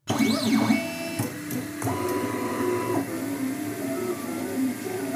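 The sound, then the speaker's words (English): 3D printer printing handheld plastic microscopes: stepper motors whine in shifting tones, with pitch arcing up and down early on and then holding steady, over a continuous mechanical hum that runs alone throughout. “Now, that's the sound of a 3D printer, which Richard is using to make handheld plastic microscopes”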